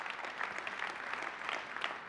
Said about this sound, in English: You can clap for that.